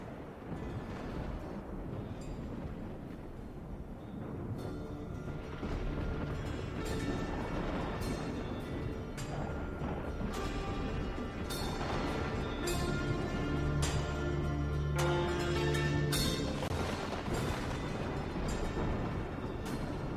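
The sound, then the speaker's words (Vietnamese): Thunder rumbles through a dark storm sky, a deep, continuous, heavy roar that stays loud and sustained throughout. “bầu trời đen xì xì, tiếng sấm sét bắt đầu vang lên dữ dội.”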